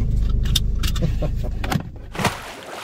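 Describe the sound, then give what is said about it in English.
A car's handbrake is pulled on while parking at the start of a carp fishing trip. A few sharp ratcheting clicks sound over a low engine rumble, and the engine then cuts out, leaving a quieter shuffle. “Gotta get that handbrake on.”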